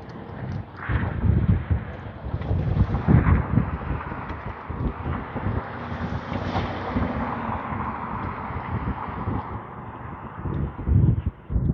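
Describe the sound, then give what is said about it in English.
Wind blowing into the microphone of someone heading north alongside a park with the wind in their face: continuous, loud low-pitched rumbling and buffeting that rises and falls in gusts throughout, with no talking. “And we head north alongside the park. With the wind in my face again.”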